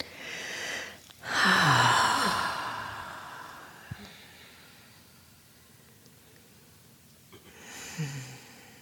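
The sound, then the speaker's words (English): Deep, airy breathing during a guided meditation at a Spirit Rock retreat: one long, loud breath early on, then a quiet stretch, and another breath beginning near the end. “Taking a deep breath. Just resting in your body. And another one.”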